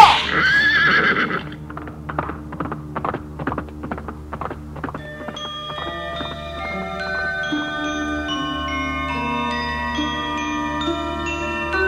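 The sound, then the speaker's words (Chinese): A horse neighs loudly, then a ridden horse's hooves clip-clop in a steady run of many beats, and sustained music comes in and carries on to the end. “辛弃疾把马鞭用力一挥，骑着马走进阳光里”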